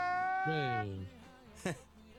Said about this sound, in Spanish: No, es más, voy a llorar. ¿Qué? Y pongo una grabación, porque no puedo ni llorar.